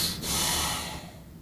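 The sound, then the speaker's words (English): A person imitates heavy breathing through pursed lips, producing one long, airy, forceful blow of breath that gradually fades away. “there was about four or five times she literally pursed her lips and breathed really heavy”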